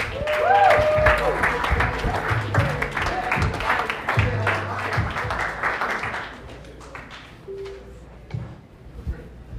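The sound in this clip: An audience applauds a comedian at a stand-up show, a dense burst of clapping mixed with voices that gradually thins out toward the end.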